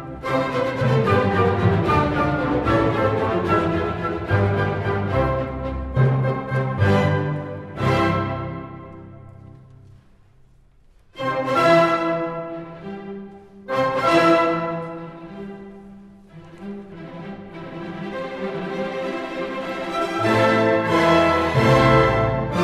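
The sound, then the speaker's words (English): An orchestra plays Schubert's Symphony No. 9, The Great, in a full, sustained passage that drops to a quiet moment midway before swelling back with loud, rich strings and winds. “The last one we have time for is the Symphony No. 9, also known as The Great.”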